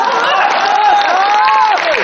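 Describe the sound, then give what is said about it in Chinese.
Audience applause at a traditional opera show, a steady, dense patter of clapping that holds level throughout, with a voice carrying over it. “来两句， 来两句， 来来， 咱这鼓掌不太热烈。”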